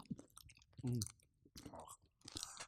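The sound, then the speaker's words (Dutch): Chewing on small sugar-coated chocolate candy eggs, like mini M&M's. A few crunchy, moist bites and chews come with pauses between them, along with a brief hummed murmur. “Let's go. Beginnen met die M&M's.”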